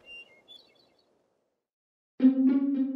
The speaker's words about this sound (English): now singing from a balsam spire in the Adirondack Mountains. How do you even record a hermit thrush atop a balsam spire in the Adirondack Mountains?